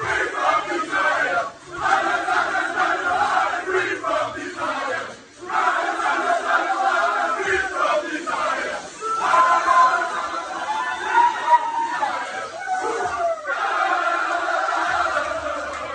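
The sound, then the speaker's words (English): French rugby fans celebrate their side's first win in Dublin in a decade: a dense, loud crowd roar of cheering and shouting that swells and dips in waves for the whole stretch. “That was the sound of the French celebrations after their first win in Dublin for a decade.”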